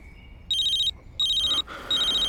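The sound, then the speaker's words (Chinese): A telephone rings in the morning as someone prepares to step outside to answer a call. The bright electronic warbling ringtone comes in three loud, even bursts separated by short gaps. “我去外面接个电话，你再睡一下。”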